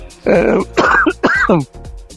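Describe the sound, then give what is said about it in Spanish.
Throat clearing and coughing from someone suffering a bad cough: three harsh, rasping bursts in quick succession, loud and with no speech. “perdón, me está atacando una tos fatal. espero que no sea COVID.”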